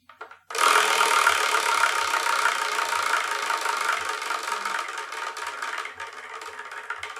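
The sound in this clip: A prize wheel spins with a sudden, loud rattling whir that starts after a brief moment, then slowly fades as the wheel winds down, with faint low taps beneath it.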